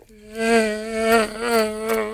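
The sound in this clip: An African mosquito buzzing in a steady, droning whine that holds a nearly constant pitch with slight wavering and swells in loudness for about two seconds.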